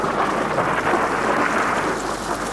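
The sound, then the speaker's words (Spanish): Steady rain pours throughout, a dense, even hiss with a low rumbling undertone. There are no distinct thunderclaps and no voices. “Estaba lloviendo, pero iba muy apurado.”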